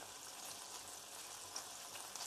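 Six strips of breakfast bacon sizzle in a pan with a soft, steady hiss and crackle. A few small pops rise above the quiet frying.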